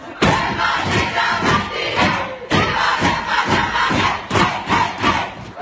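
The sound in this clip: Players from a women's national football team cheering and chanting together in the locker room, loud rhythmic group shouts repeating in bursts with a short break partway through.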